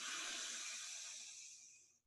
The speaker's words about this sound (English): Deep breath in. Deep breath out. Everyone, what, like everyone, all together now. One more, all together.